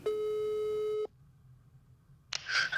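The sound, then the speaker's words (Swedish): Telephone ringback tone as an outgoing call from an office in Stockholm is placed to Germany: one steady, loud electronic tone lasting about a second, then silence, then a brief burst of noise. “Och nu tänker jag att vi bara måste ringa eh, till Philip i Tyskland.”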